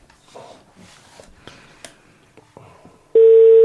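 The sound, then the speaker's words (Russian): A telephone tone on a call to an expert: a few soft clicks and knocks, then a loud, steady, single-pitched tone near the end. “Давайте, звоните. Так, так, это у нас звоночек.”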